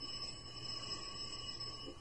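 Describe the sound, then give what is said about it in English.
A doorbell rings at an apartment, a faint buzzing tone held steady for the whole stretch without a break. “Monday morning, 12:47 a.m., we rang the bell to his apartment. He's probably asleep. Yeah. Want to try it again?”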